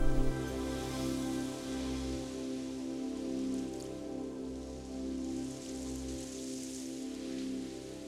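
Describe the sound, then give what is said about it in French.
Steady rain falls in a dense, even patter of drops on a surface, fairly faint and unbroken throughout, with a low hum beneath it. “Oh, regardez, il pleut.”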